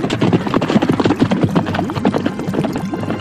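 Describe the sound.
Hoofbeats of horses ridden out of town by two riders: loud, fast clip-clopping that runs continuously in a busy, uneven rhythm from start to finish.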